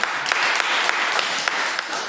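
Audience applause fills the moment at a gathering where children have just been praised, a steady wash of many hands clapping with crisp, irregular sharp claps standing out, fairly loud and with no talk over it.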